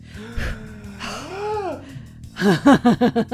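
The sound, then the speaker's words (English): A deep, gasping breath in, drawn audibly, followed by a burst of rhythmic, pulsing laughter. “Are you ready? Breathe deep.”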